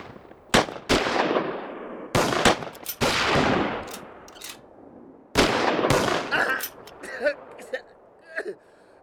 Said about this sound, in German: Feuer eröffnen!